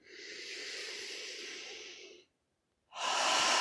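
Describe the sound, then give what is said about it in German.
Slow, soft breathing during a guided relaxation exercise: one long airy breath of about two seconds, a brief silent pause, then the next breath starting. “Noch einmal einatmen und ausatmen.”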